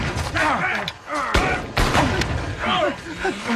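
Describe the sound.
Gunfire during a firefight: a few sharp, loud shots crack through, mixed with shouting voices.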